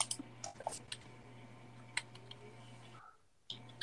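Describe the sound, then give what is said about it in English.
Quiet typing on a computer keyboard: scattered light clicks and taps over a steady low electrical hum, with a brief drop in the background near the end before a few more keystrokes. “I just typed in Raccoon City budget.”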